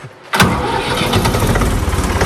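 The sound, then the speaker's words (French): A farm tractor's engine starting: brief quiet, then the engine catches abruptly with a loud burst and settles at once into a rough, steady, low-pitched run that continues to the end. “Puis, alors, on va démarrer le tracteur.”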